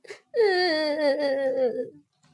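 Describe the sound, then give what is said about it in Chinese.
A voice acting out a little tree crying in a children's story makes a single drawn-out, whimpering wail. The wail is preceded by a short faint breath and sags slightly in pitch before it breaks off, followed by quiet. “他哭了起来。”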